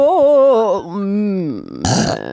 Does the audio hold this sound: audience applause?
no